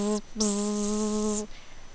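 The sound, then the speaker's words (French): A mosquito's buzzing flight at night sounds as a steady, low, droning hum. It breaks off briefly, returns for about a second, then stops abruptly. “Zut, un moustique!”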